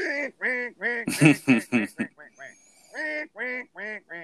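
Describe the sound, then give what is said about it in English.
Duck call blown in a long, quick series of nasal quacks, each dropping slightly in pitch. The loudest, harshest notes come in the middle, with softer, shorter ones around them. “you can pick up that duck call every time you get in the car, and if all you do is go,”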